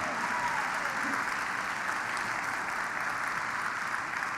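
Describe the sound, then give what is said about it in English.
Audience applause after a children's story performance about Zechariah and Elizabeth: continuous, even clapping from a crowd, moderately loud and unbroken throughout. “Give them all a hand.”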